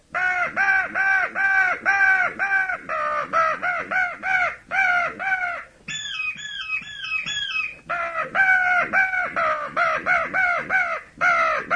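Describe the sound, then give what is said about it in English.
Harsh caws blown on a crow caller to imitate an old crow: many short, rapid calls in quick bursts, broken midway by a higher, warbling stretch before the steady cawing resumes. “Let's see how an old crow sounds.”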